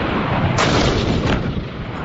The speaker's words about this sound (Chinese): 装甲战车迅速占领射击阵位，射手利用战车短停间隙快速瞄准击发，炮弹呼啸而出，准确命中目标。